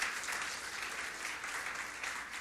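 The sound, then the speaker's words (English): Congregation in a church service clapping in praise to the Lord, a soft, even patter of many hands that carries on steadily at a low level without breaks or voices. “Can we give the Lord a clap of praise?”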